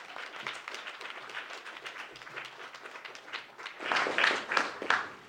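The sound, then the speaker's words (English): An audience claps to welcome musicians opening an evening event, a dense, steady patter of many hands that swells louder for the last second or so. “If you would join me in welcoming them, and with a warm round of applause”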